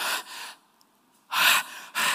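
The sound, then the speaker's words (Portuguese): A voice imitates a groan of despair and pain with breathy, unvoiced exhalations: a few heavy gasping breaths, separated by short pauses of silence. “Esse é o gemer, é o gemido de desespero, de dor que o salmista estava tendo aqui.”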